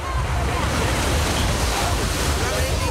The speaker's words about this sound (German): So klingt's heute im Strandbad in Losheim.